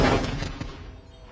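Gunfire from a firing squad in a dubbed film: a loud, sharp volley burst that rings out and slowly decays over about a second.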